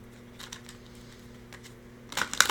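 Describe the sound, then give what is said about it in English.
A card being drawn from a deck of action cards: faint soft rustles give way to a brief, brisk burst of papery shuffling and flicking at the end. “let's get an action card for you. See what our sacred feminine deck has to say.”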